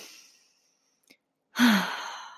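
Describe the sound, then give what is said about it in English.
A deep breath let out as a slow, relaxing sigh: one loud, breathy exhale that fades gradually, heard alone after a short quiet gap and a faint earlier breath. “Take a deep breath.”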